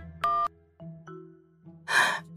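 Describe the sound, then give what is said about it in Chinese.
A mobile phone ringtone for an incoming call: a few short electronic tonal beeps separated by gaps, ending with a louder, noisier burst. “安哲臣第三个电话进来的时候，雷猛接了。”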